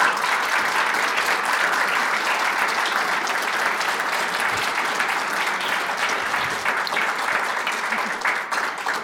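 A live audience at Town Hall Seattle applauds a police chief: dense, steady clapping that stays loud and even for the whole stretch, without a break.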